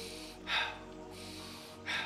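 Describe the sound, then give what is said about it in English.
Breathing in a cyclic breathwork pattern, each cycle an inhale through the nose and an exhale through the mouth. Two soft, airy breath bursts stand out from a quiet background, spaced about a second and a half apart. “We're going to do simple cyclic breathing. It will be an inhale nose, exhale mouth, which will sound like this.”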